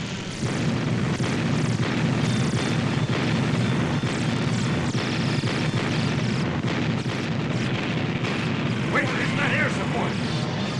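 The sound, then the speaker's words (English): An artillery battery opening fire during a battle against alien spacecraft, a dense, continuous roar of booming blasts mixed with aircraft noise, with no single shot standing out. “Battery, open fire!”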